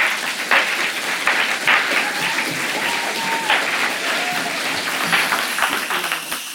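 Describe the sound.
Audience applause welcoming an author and a literary critic onto the stage at a literary event: dense, steady clapping that holds evenly throughout and tapers slightly at the very end.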